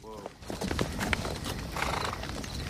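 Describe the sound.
Horse hooves clip-clop in a quick, steady rhythm as a rider approaches, opening with a short whinny; a voice talks over the hoofbeats throughout.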